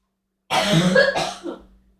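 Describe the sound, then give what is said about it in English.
A brief coughing fit: a long harsh, rasping cough gives way to a couple of shorter hacks and throat-clearing sounds that trail off into silence, with no talking. “I'm going to go have a coughing fit”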